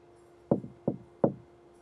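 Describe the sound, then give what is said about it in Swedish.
Three sharp knocks on a hotel room door, rapped by a hotel cleaner at room 2005 of the Park Lane Hilton in London, evenly spaced and standing alone against a quiet background. “Klockan har precis slagit 9 på morgonen när en av hotellets städare knackar på dörren till rum nummer 2005.”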